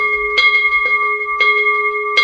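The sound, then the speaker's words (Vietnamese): Buddhist temple bell rung at the start of a ceremony, a clear, sustained ringing tone with a few sharp strikes at uneven intervals. “Bắt đầu vào khóa lễ thì chúng ta cũng thức chuông, hay còn gọi là rắc chuông hai lần như thế này, và bắt đầu chúng ta thỉnh hồi chuông.”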